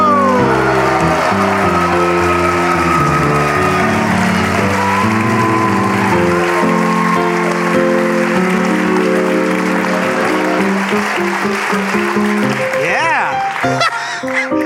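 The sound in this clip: Loud audience applause welcoming a guest onstage: sustained, dense clapping throughout, with voices speaking over it.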